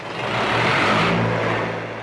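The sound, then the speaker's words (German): Diesel generator running in a garment factory in Bangladesh: a steady, loud engine drone with a low hum beneath it, unchanging for the whole stretch, with no voices. “Noch läuft der Generator in Hassans Fabrik, von dem die Stromversorgung abhängt. Doch der Dieselkraftstoff ist rar und teuer.”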